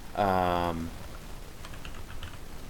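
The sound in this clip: Soft keyboard typing on a computer while a character is looked up: a few faint, light keystroke clicks near the end, following a brief louder tonal sound at the start.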